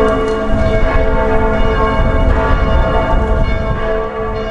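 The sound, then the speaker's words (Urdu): Church bells ring out in German cities for a former pope's funeral at the Vatican, a loud, sustained peal of rich, overlapping metallic strikes that continues throughout without any voices. “Vatican میں سابق pope Benedict 16 کی آخری رسومات کے موقع پر آج German شہروں میں گھنٹیاں بجائی گئیں۔”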